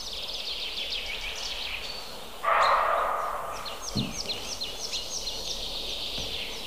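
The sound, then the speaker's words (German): A coal tit sings in a series of short, high, repeated notes that continue through most of the stretch, fairly faint against a steady background hiss. “diese Meise macht mich wahnsinnig”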